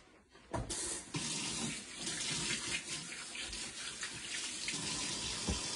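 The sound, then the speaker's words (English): Hands are washed under a running tap. Water rushes steadily and loudly, with splashes and small shifts as the hands move through the stream. “I'm going to wash my hands.”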